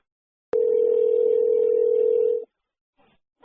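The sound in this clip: Telephone dial tone while a call is being placed: a steady, unbroken hum that holds for about two seconds and cuts off abruptly, followed by a couple of faint, short blips.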